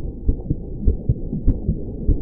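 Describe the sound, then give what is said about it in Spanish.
A heartbeat heard underwater from the bottom of a swimming pool, felt in the ears: soft, muffled low thumps that come in steady paired beats, a few double pulses, alone with no voices. “El mundo está silencioso, salvo por el latido del corazón en mis oídos.”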